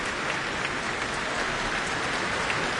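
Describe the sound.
A concert audience applauds after a piano encore, a dense and steady wash of many hands clapping at even loudness throughout, with no voices standing out.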